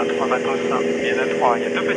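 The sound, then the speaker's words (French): Steady droning engine of a police patrol airplane in flight over the beach at Gravelines, with people talking over it throughout. “la brigade de police aéronautique de Lille patrouille en avion”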